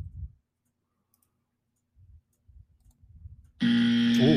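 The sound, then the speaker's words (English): A game show-style wrong-answer buzzer in a Super Bowl trivia quiz: after a few faint low thumps, one loud, harsh, sustained buzz cuts in and holds to the end. “Don't be so offended by the buzzer”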